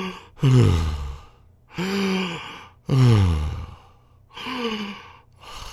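A person imitates heavy, labored breathing: a series of loud gasping breaths, with four long ones, each swelling then trailing off, separated by short pauses.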